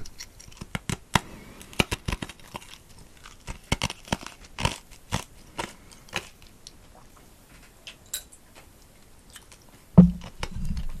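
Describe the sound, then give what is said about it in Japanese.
Ice cubes from a gin and tonic being bitten and chewed, with many crisp, irregular crunches and clicks. The crunching is fairly quiet with no talk, and one harder crunch comes near the end. “氷を噛む”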